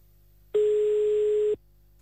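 A telephone ringing tone sounds while a call is placed, one steady mid-pitched beep lasting about a second, alone between quiet pauses.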